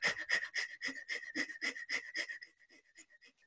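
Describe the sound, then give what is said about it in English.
Rapid, forceful hyperventilating breaths drawn in through the nose and blown out through the mouth in a breathing exercise. A quick, even train of sharp puffs grows noticeably softer after about two seconds, with no talking. “you're going to take a deep breath in. And then as you exhale, you're going to like blow out like you're hyperventilating.”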